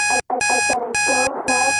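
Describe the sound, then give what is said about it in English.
An alarm goes off in four sharp, high bursts of beeping while a song plays underneath at a lower pitch and carries on through the gaps. “in the background, you can hear a song playing at the same time as an alarm going off”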